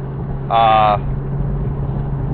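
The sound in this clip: A car's interior rumble while driving is a low, steady drone throughout. A short, bright beep-like tone sounds once about half a second in.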